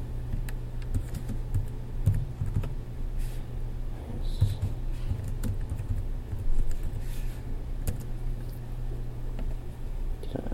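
Typing on a computer keyboard: many quiet, irregular keystroke clicks tapping along continuously over a low steady hum.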